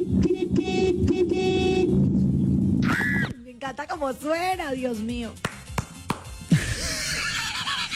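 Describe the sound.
Car horn honking in a few loud, sustained toots during the first seconds, followed by people talking.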